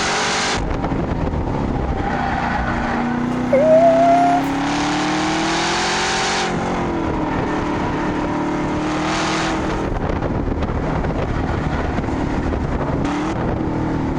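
Race cars on a track, one passing a slower car: a steady engine drone that climbs in pitch and then drops at a gear change. The sound is moderate and alone, with a brief high squeal early on.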